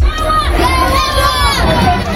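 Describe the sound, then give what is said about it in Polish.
A crowd of football fans, mostly Polish supporters in Florida wearing white and red, cheers and shouts to greet Robert Lewandowski at an MLS match. Loud, dense crowd noise carries overlapping calls throughout. “Jak słychać, na Roberta Lewandowskiego czekali jego fani. Było trochę osób w biało-czerwonych barwach. To głównie Polonia z Florydy. Witamy w Ameryce. Niektórzy przywitali go takimi okrzykami lub napisami na flagach.”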